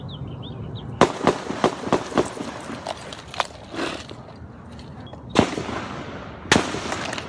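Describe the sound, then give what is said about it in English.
Gunshots during a shooting in Virginia, captured on a bystander's phone video: many sharp, loud cracks, a rapid irregular burst early on, then a few isolated, heavier bangs spaced seconds apart over a noisy background, with no speech. “This was video at the time of the shooting.”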